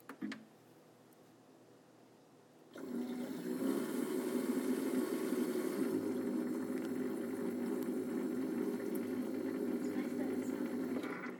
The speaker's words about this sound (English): It is nice that it's not a touch screen. It makes it really easy to use. Don't really care about the other options it has as long as it makes coffee.